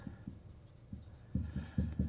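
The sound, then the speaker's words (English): Faint scratching of someone writing something down during a sermon, short bursts of pen strokes in an uneven rhythm that grow a little louder and busier toward the end. “Let's write that down.”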